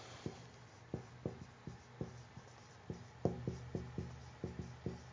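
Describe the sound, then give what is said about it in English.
Handwriting with a pen produces many faint, short scratching strokes in an uneven rhythm, each a soft tick or scrape, with no talking alongside. “you know, so I can't talk when I'm writing. I can only do one thing at a time.”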